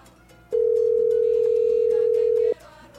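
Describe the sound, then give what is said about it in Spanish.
Telephone dial tone on a line being dialed to reach a listener for a live call-in. A single steady, even-pitched tone sounds on its own for about two seconds, then cuts off sharply. “vamos a marcar un oyente completamente en vivo. Recuerde santo y seña y dos comerciales de la hora anterior. Así que vamos a marcar por aquí”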